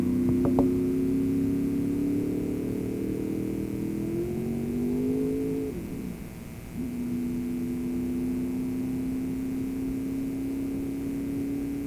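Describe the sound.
An AA gas streamliner race car on the long course drones steadily with a buzzing engine tone. The pitch climbs gradually, dips and breaks off briefly partway through, then settles back to an even pitch until the end.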